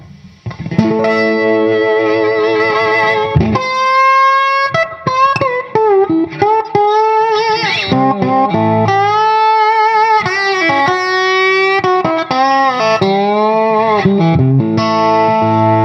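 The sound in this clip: Distorted electric guitar played through two compressors without a booster pedal, loud and bright, mixing long sustained notes with quick runs and wavering bent notes, heard alone.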